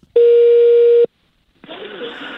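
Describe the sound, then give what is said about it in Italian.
A telephone tone sounds after a dropped call: a single steady, mid-pitched electronic tone lasting about a second, then a short silence, then a rough, noisy stretch. “deve essere caduta la linea”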